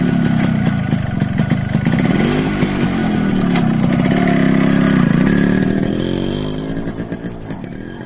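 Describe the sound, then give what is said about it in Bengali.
A motorcycle engine running: a steady, loud low rumble with a throbbing pulse and slight pitch swells, easing a little toward the end. “Rajib or bike নিয়ে এসেছিল। Minute 5-এর মধ্যেই তৈরি হয়ে অনল ওর বাইকের পেছনে উঠে বসল।”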